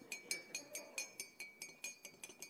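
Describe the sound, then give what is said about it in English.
A spoon clinks against a cup while stirring coffee, a loud, bright metallic ringing repeated many times in a quick, steady rhythm. “This is how my grandfather always stirred his coffee. It was really obnoxiously loud.”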